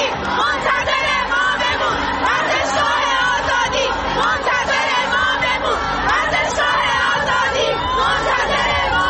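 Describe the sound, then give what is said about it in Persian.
A stadium crowd chanting and shouting at a football match, heard through a phone call; a dense, continuous roar of many voices stays loud and steady throughout. “گفتم یه صدایی ولی داره میاد، چی میگن ملت؟ گفت آره دارن اون بر شعار میدن، گوش کن.”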